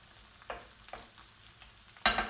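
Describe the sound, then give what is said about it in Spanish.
Mushrooms fry with a faint, steady sizzle in hot sofrito for a mountain rice dish with pork ribs, broken by a few brief scraping stirs, the last one the loudest. “Ya vuelve a estar caliente el sofrito y ahora le incluimos las setas. Removemos bien para repartirlas y que todo quede impregnado.”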